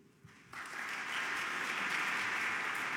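Applause welcomes the chaplain of the United States House of Representatives. It starts about half a second in, swells quickly and then holds as a steady, even clapping wash to the end.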